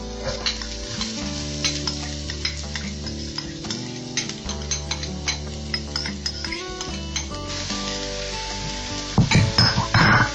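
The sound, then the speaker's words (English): Onion and garlic sizzle steadily in a frying pan while being stirred, the constant frying hiss broken by soft scrapes and light clicks of the utensil, with a louder clatter of cookware just before the end. “You stir that around for a few minutes until the onion's brown.”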